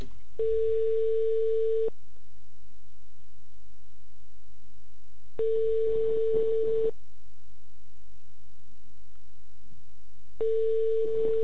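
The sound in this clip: Ringback tone of an outgoing phone call: a steady single-pitched tone lasting about a second and a half, repeating three times with long silences between, the last tone cut off at the end, over a faint background hum.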